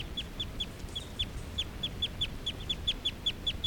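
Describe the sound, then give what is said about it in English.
Call of a male bird on a cage beside a caged female: many short, sharp, high chirps repeated at a quick, steady rhythm, fairly faint over a low background hiss. “This is a call of a male who's right next to bird 378.”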